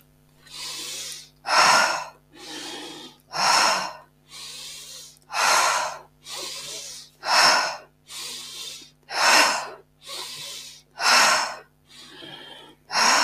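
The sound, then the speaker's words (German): Intense, forceful inhaling during breathwork comes as a long, steady run of loud, rushing breaths in an even rhythm. There is no talking between them. “Schau mal, ob du noch intensiver einatmen kannst.”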